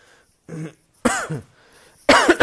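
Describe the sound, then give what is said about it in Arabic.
A lecturer teaching a lesson coughs and clears his throat in three short, harsh bursts separated by brief silences. The last burst is the loudest. “أعتذر إليكم، يعني ربما يكون فيه سعال شوية، فلا تنزعجوا لتكرر هذا.”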